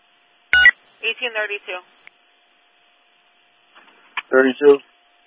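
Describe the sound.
Telephone dialing tones heard over police dispatch radio traffic as someone places a call: a few short, bright tone bursts separated by gaps, with clipped radio voices between them.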